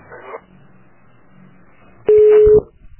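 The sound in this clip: A telephone busy tone on a redialed call after the line dropped: faint line noise, then one loud, steady mid-pitched beep lasting about half a second.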